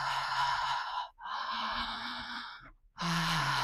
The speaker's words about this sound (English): So often in the morning, I wake up and I do this. I breathe in and out of the mouth.